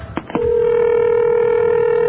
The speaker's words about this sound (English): It would appear to be ringing. Rang pretty fast, too.